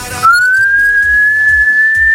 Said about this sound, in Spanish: ¿Silbar? Sí, no se me da mal.